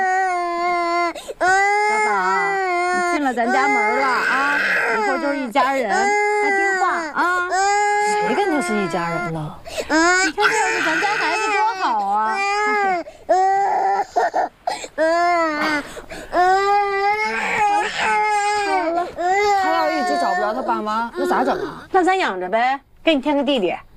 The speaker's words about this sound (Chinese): 哎呀，哭了。好了，姐姐抱抱。哎呦，谁抱都哭，这孩子。那小孩哭不是正常的吗？